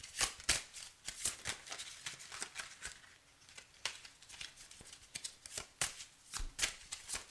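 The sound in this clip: Tarot cards being shuffled and drawn make quiet, irregular flurries of crisp papery flicks and riffles, with brief pauses between bursts and no talking.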